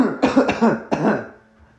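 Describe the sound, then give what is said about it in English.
A person coughs a few times, acting out a cough during a tabletop role-play game. The coughs are rough, voiced bursts close together that fade into quiet. “just kind of coughing.”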